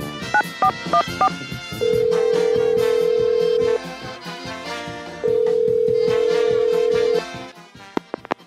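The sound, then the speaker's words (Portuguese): A telephone number is dialed: a quick run of short dual-tone keypad beeps, then two long, steady ringing tones separated by a pause, all loud and clear. “Eu preciso fazer uma ligação urgente e todas as linhas estão ocupadas. Só tem essa aqui do Estúdio Livre. Mas vocês não vão se importar de ouvir de novo, né? Enfim, já agradecendo aí de antemão a vocês, ouvintes da Transamérica. Vamos lá, discando aqui o número.”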